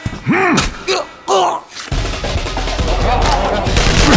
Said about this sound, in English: the other troops, who fired wildly, hitting one another, ricocheting bullets off the walls